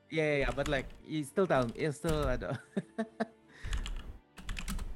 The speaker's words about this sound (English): I'm typing it for RJ.